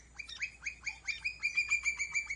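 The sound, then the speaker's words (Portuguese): A campo flicker woodpecker (Colaptes campestres) calls in a long run of many sharp, bright, repeated notes. The notes come in a steady rhythm that gets slightly quicker toward the end, and nothing else is heard. “Pica-pau do campo, Colaptes campestres, é quem vocaliza assim.”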